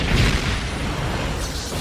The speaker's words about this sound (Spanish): para posar mientras explotan cosas a su alrededor